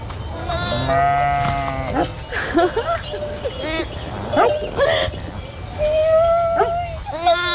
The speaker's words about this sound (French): Quand elles appellent leur agneau, elles ont un truc plus grave.